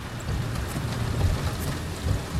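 Steady rain falls on a driveway, making a dense, continuous hiss over a low rumble. The sound is unbroken and there are no voices.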